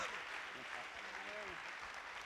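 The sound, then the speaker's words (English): Church audience applauding: steady, dense clapping that holds at an even level throughout, with a voice faintly audible underneath. “Will you put your hands together and honor the Lord Jesus Christ and welcome the man of God.”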